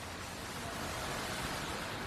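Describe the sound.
Water falls at the North Tower footprint of the 9/11 memorial, making a constant, even rushing hiss with no breaks or changes in level.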